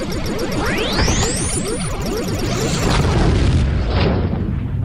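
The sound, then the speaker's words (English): A spaceship blows up in a video game with synthetic booms and bursts, sweeping whooshes arcing upward over a barrage of repeated low blasts, all loud, then a rumbling tail as the high end fades out. “Ship destroyed. Game over.”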